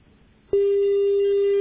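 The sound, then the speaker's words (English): Telephone line tone after a caller dropped off a call-in line: a loud, steady single-pitched electronic tone that starts abruptly and holds without a break to the end. “I think the brother has dropped the line.”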